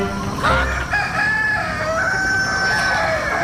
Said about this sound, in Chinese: 走开走开走开， 咁犀利啊！哇，你嚟打我，咁恶嘅鸡公。